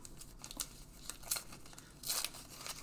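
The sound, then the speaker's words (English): Match Attax 23/24 trading card packs are torn open, giving crisp crinkling and ripping in a few short bursts, with the loudest burst near the end, all fairly quiet. “Thank you all for joining us as we are opening these Match Attax cards.”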